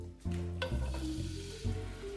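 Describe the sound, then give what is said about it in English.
Glazed tempeh hits hot oil in a pan with a sudden loud sizzle that settles into a steady, crackling fry, with a brief surge of hiss near the end. “I'm just going to give my tempeh a little toss in the glaze. And so it's ready to be dropped into the pan.”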